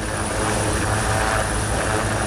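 Military helicopters roar steadily through the whole stretch during an amphibious assault exercise on an island, a dense, loud rotor and engine drone with a low pulsing beat, no voices.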